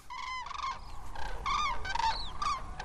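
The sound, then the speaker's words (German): Cranes give repeated trumpeting calls at sunrise as pairs and small groups take off and fly overhead. Many harsh, harmonic calls come in quick succession over a faint background rumble. “Die ersten Kraniche haben sich schon formiert. Zu zweit, zu dritt, zu viert erheben sie sich und fliegen majestätisch über uns hinweg. Erst ist es nur vereinzelt zu hören,”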